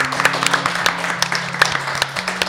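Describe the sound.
Short burst of audience applause for an engineer at a live recording in a library. Scattered, moderately loud claps patter through the brief moment.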